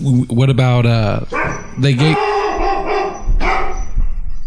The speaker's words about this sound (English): who let the dog in the studio? Who let the dog out? Who let the dog out?